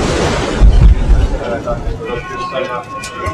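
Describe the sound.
A mine shaft lift ascends in the Kłodawa salt mine with a steady low rumble and a rushing, wind-like noise, later joined by a faint hum. People talk over it.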